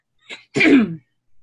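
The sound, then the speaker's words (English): A person clears their throat, with a short rasp followed by a louder, longer guttural clearing and then a faint trailing sound, with no speech. “We are trying to clear this throat.”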